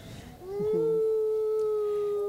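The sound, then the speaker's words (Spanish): Neighborhood dogs howling at night in the city: a long, loud, mournful howl that rises at the start and then holds a steady high pitch, with no talking. “Dicen que el perro aúlla cuando se siente solo. Empezó uno y luego se unieron todos los perros del barrio.”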